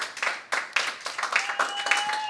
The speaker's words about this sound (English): Please give your panelists a hand.